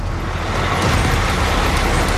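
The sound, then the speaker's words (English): Steady roar of a truck hauling a 53-foot trailer as it drifts around a corner: a continuous, loud wash of engine and road noise with no clear breaks. “That's what you call drifting. 53-foot trailer around the corner.”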